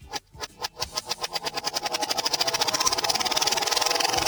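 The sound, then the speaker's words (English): A wheel spun backwards gives off a long run of sharp, evenly spaced clicks that start fairly slow and speed up steadily into a dense, rattling tick. “I'm spinning it backwards, okay? I'm going to spin the wheel backwards.”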